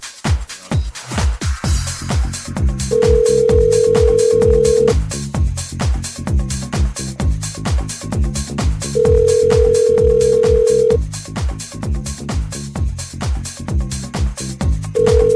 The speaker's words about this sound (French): On va appeler quelqu'un.